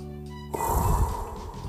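A deep breath taken during a self-love affirmation exercise: a low steady tone sounds briefly, then a single long, breathy rush of air starts abruptly, swells and slowly tapers off, with no talking.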